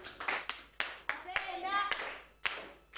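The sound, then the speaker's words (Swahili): A church Sunday school audience claps for a child's correct answer to a Bible question: a steady series of sharp, separate hand claps, with a voice speaking between them. “Amepata. Amepata. Tumpongeze kwa makofi.”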